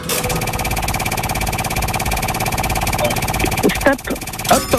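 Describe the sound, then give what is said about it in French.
A game show's wheel of games spins with a rapid, steady stream of mechanical clicks for nearly four seconds, then slows and gives way to brief voices near the end. “On tourne la roue des jeux et vous me dites stop quand vous voulez.”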